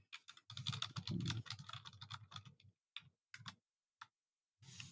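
Someone types a message on a computer keyboard: a quick run of soft keystrokes, then scattered clicks separated by short pauses and a final burst at the end. The typing is quiet, with no talk.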